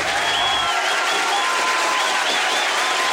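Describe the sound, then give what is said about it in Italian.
An audience in Castelvetrano applauds after a comedy duo's first performance, a dense, steady wash of clapping that stays loud and unbroken throughout. “Quelli che sentite sono gli applausi che il pubblico di Castelvetrano tributa a Franco e Ciccio dopo la loro prima esibizione.”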